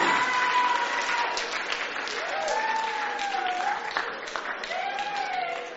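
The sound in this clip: A church audience applauds and cheers in a steady wash of clapping, with high, sliding vocal calls rising above it at intervals.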